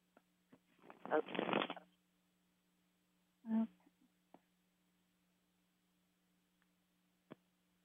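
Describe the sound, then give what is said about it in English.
A deck of tarot cards shuffled by hand: a dense riffling burst lasting about a second, then a shorter flurry, followed by a few faint isolated ticks over a low steady hum. “So let me quick shuffle here, and then we will pick one card and hopefully get you some insight there on this upcoming trial.”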